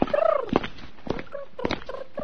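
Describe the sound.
Turkeys gobbling where a boy is playing among them: a loud warbling gobble bursts out at the start, followed by a few shorter rattling calls, with no talk.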